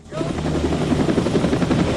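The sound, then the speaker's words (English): A helicopter comes in to land with a loud, rapid rotor chop. The beat starts abruptly and continues as a steady, throbbing pulse over a broad engine roar. “Outside, the chopper's coming into land.”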